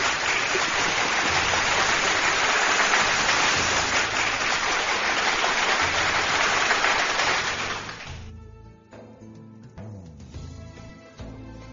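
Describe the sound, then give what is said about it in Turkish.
Applause from an audience after a Turkish poetry reading: dense, rain-like clapping holds steady for about eight seconds, then thins and fades away. “Suna hocam, kocaman kocaman bir alkış şiirine.”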